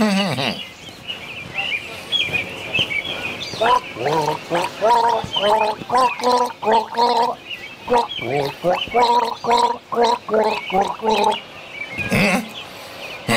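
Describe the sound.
Person gargling water in a long series of short, bubbling, pitched bursts with a rhythmic, tune-like pattern, loud and continuous with brief gaps between runs.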